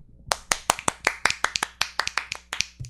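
Hand clapping as applause: many sharp, bright claps in an uneven, quick rhythm over a few seconds, with no talk over them.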